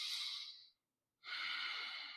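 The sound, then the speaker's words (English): Soft breaths drawn through the nose during a calm meditation exercise: two long, airy breaths, faint and unhurried, separated by a short silent pause. “And so I breathe in and out through my nose, and I count one.”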